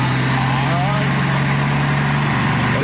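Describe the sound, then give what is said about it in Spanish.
A Dina truck engine runs steadily in a constant, loud low-pitched drone with an even mechanical hum and no change in speed. “Este tiene un motor de Thornton. Tiene un motor de camión Dina.”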